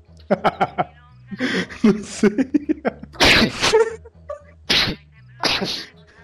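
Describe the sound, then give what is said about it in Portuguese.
A person sneezes during a conversation. Several sharp, loud, breathy bursts cut in among the talking voices. “Alguém tá espirrando. Eu tava.”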